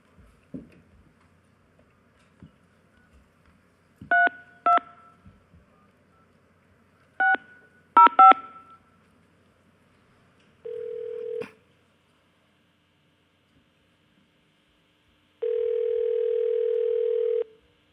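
Touch-tone beeps sound as a phone number is dialed for a call to Seattle: a few quick pairs of beeps separated by silence, then two long, steady single-pitched tones, the second lasting about two seconds.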